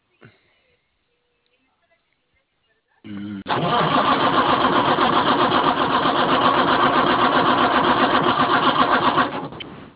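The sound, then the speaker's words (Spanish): A car engine cranks but fails to start, a no-start fault with no diagnostic codes showing. After about three seconds of silence the starter whirs in a loud, steady, rapidly pulsing grind for roughly six seconds, then cuts off. “pero no me arranca y no me aparecen los códigos.”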